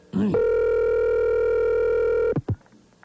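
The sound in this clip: A telephone being dialed gives a steady buzzing tone that holds for about two seconds, then breaks off into a couple of short clicks.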